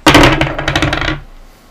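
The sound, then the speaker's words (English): Small plastic toy dice with little symbols clatter as they are rolled: a loud burst of many quick, sharp clicks lasting about a second, then settling into quiet. “So Kaylee is going to roll the dice and give us a story based off of the dice.”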